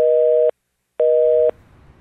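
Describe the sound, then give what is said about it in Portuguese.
Telephone busy tone after a dropped call: two loud, steady beeps, each lasting about half a second and separated by an equal gap of silence, followed by faint background noise. “Opa, caiu a linha, a ligação com o deputado Minuto.”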